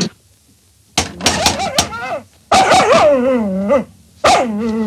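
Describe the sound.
A dog barks loudly in quick, sharp yaps, then lets out long, wavering yowls and whines between the barks.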